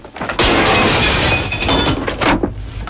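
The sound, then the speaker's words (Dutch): A glass window pane cracks and shatters: a sudden loud crash, then a sustained, crackling spray of breaking glass with a few sharper bursts near the end before it trails off. “Wat is er? Wat doe je? Dat is een barstende ruit.”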